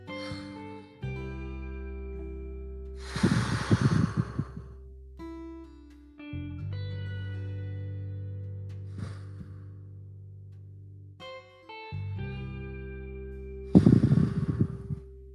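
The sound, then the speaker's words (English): People breathe deeply together in a few slow, airy inhales and exhales over soft, sustained musical tones. The breaths come at uneven intervals. “On the count of three, we're gonna take three deep breaths.”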